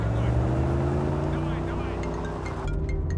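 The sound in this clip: Steady engine drone of a car driving through city streets, a loud low hum with tonal harmonics that holds throughout with little change.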